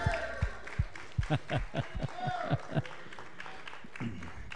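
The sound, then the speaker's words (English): Rhythmic clapping from a church audience: many steady, sharp hand claps in a regular beat, with voices mixed in throughout. “Now give the Lord a good clap offering.”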